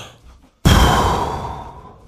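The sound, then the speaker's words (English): A deep breath taken as a lung-strengthening exercise by someone with severe heart leaks: one loud, sudden, rushing exhale that starts after a brief quiet moment and gradually fades over about a second and a half. “So I take deep breaths every so often, like,”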